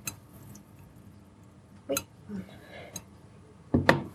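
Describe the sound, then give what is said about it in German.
A small cooking pot taken off the stove gives a few short metallic clinks and knocks, separated by quiet gaps. “Der Topf hier mal vom Herd. Der kleine Topf da raus.”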